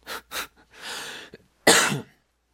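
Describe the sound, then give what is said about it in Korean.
A person coughs while close to sneezing: two short harsh bursts, a longer breathy exhale, then a louder rough burst. There is no talk. “지금 제가 재채기가 나올랑 말랑 지금 기침이 그래가지고”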